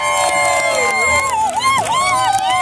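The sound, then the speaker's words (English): A loud crowd of fans at a live outdoor football show in London, near Tower Bridge and the Tower of London, gives a continuous roar of cheering and babble, with a voice rising and dipping in pitch above the noise. “The scene, the crowd, it's been incredible.”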